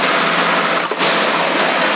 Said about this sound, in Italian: c'ho la ventola dell'alimentatore, c'ho il ventilatore acceso